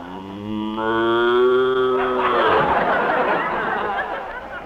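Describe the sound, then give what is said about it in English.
A cow, ridden like a mount, gives a long, loud, low moo rich in harmonics that turns into a rough, breathy bellow before fading. “He rode that cow everywhere.”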